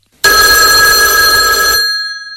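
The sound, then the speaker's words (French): A telephone ringing during a call placed to reach a voicemail, one continuous bright electronic ring with steady harmonic tones that stops after about one and a half seconds, leaving a faint fading tone. “On va d'abord commencer par l'appeler, peut-être.”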